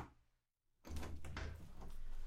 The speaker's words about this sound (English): Let me get the door.